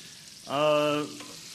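Apple slices frying golden in a pan in a mix of oil and margarine give a steady hiss throughout, with a brief, level tonal whine rising out of it for about half a second midway.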